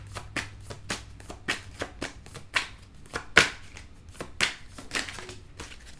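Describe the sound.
Tarot cards being shuffled and drawn, heard as many crisp, papery snaps and flicks in an irregular rhythm, some sharper and louder than others, with no talking.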